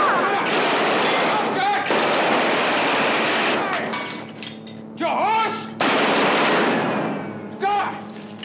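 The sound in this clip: Machine gun fire from a movie scene comes in long, dense, crackling volleys that fill almost the whole clip, with a few brief dips between bursts.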